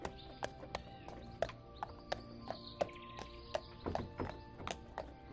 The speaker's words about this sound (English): The sound of the carriage wheels and the pony's hooves is rhythmic, relaxing.